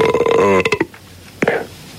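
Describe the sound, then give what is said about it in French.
A loud, drawn-out burp from a person rumbles for most of a second, followed by a shorter, sharper burp. “Merci pour celui qui rote. Espèce de gros porc.”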